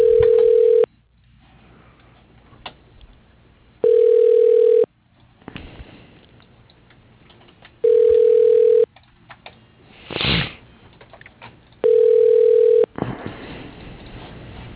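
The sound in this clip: Ringback tone on a telephone line while a call is transferred to voicemail: four steady, mid-pitched tone bursts of about a second each repeat roughly every four seconds, with faint line noise and a brief rushing burst between them.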